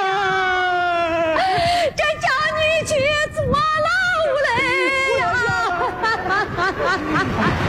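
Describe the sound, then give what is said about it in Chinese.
A woman cries loudly in a near-continuous run of high, wavering wails, each cry sliding and quivering in pitch, with short broken breaks between them. “别哭了，别哭了，哭也没用，谁叫他养出这种儿子了？”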